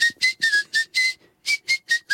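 Whistling through the front teeth, made without moving the lips: a series of short, breathy, high-pitched notes in a quick, even rhythm, with a brief pause midway before the notes resume. No talking.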